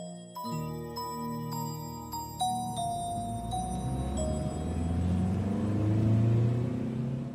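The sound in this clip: A low rumble like a car driving down a lonely road, swelling louder toward the end beneath bright, ringing chime tones that strike a few times at the start and then fade.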